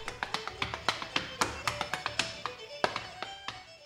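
Irish dancing on the wooden floor of CNA's Rome office makes many crisp hard-shoe taps and clicks in quick, brisk rhythmic bursts, moderately loud and with no voices.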